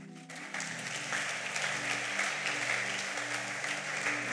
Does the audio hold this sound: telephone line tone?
no